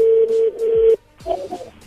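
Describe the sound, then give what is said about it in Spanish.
Telephone tone from an outgoing call being placed: a steady, even electronic tone holds for about a second and then cuts off, followed by faint, muddled line sounds. “Bueno, ya entró ahí la llamada.”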